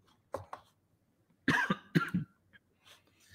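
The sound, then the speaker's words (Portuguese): Coughing from someone who has just choked: a couple of small coughs, then a harsher cluster of several coughs, fairly faint with a few quiet sounds after. “Desculpa. Gasguei feio.”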